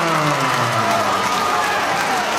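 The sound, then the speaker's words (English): Boxing crowd cheering and applauding after a split-decision result, a loud, continuous roar of voices and clapping that holds steady throughout. “Cheers all around for Jacob Kassar's performance there”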